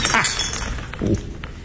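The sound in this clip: A drinking glass smashes with a brief, bright shatter and tinkling fragments, short and sharp, followed by quieter scattered clinks.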